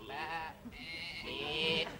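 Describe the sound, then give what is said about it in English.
Sheep bleating: a short nasal bleat followed by a longer, wavering call that swells toward its end. Both are loud and heard alone. “No, that's definitely a sheep.”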